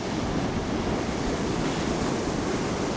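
Sea waves breaking on coastal rocks produce a constant roaring wash of surf mixed with wind noise, dense and steady at a moderate level, with no separate crashes standing out.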